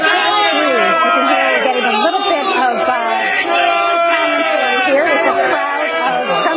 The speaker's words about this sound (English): the crowd behind us, Trump supporters, started chanting,